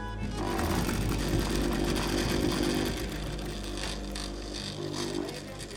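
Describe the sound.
A sewing machine runs in a sewing shop with a steady, continuous mechanical whir and hum that holds at an even loudness throughout, with no pauses or talking.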